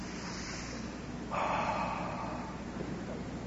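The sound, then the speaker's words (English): An audience taking a deep breath together: a soft, airy hiss of many people inhaling swells up and holds for about a second, then settles back into a steady low background hiss. “can y'all just take a deep breath?”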